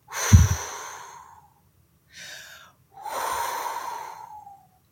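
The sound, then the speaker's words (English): Breathing exercise with forceful exhales like blowing out a candle: three breathy puffs, the first sharp and strongest, a short quieter one, then a longer, softer blow. “The second sound is blowing out a candle.”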